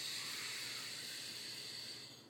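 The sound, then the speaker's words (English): A long, steady hissing breath drawn in through the nose during a guided meditation, soft and even, fading slightly at the end. “Take a deep breath in through the nose,”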